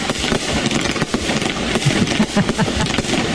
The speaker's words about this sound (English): With a bold three-part aerial performance that lights the sky in iconic red, white, and blue, each cake fires 35 powerful shots.